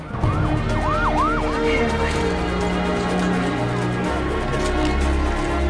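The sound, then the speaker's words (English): Wailing sirens from police and emergency vehicles gathering around a plane, with a few rising and falling sweeps early on over a steady, dense rumble of engines. “As Flynn and Troy leave the cockpit, more police and emergency vehicles throng around the plane”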